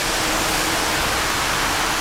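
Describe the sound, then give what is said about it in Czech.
Pressurised water jets spray the walls of an underground drinking-water reservoir chamber during cleaning, making a steady, loud, dense hiss with a low rumbling undertone that holds unbroken throughout. “Teď začali čistit stěny. Ano, už stříkají.”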